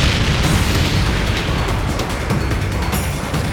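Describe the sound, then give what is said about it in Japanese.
An air strike explosion produces a heavy, sustained low rumble mixed with broad crackling noise that rolls on for several seconds and eases slightly toward the end, with no voices. “本地区にアーメルンからの空爆がされるようです、 いつだ、 今です”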